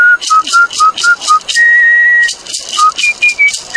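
A man whistling a tango tune: crisp, staccato whistled notes and one longer held note, loud and clear over a steady, rhythmic rattling accompaniment.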